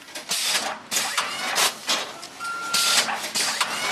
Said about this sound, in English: Over in the warehouse, the musty smell of peat moss hangs in the air as bulbs and roots twirl through conveyor belts and shrink wrap machines into bags to ship to customers.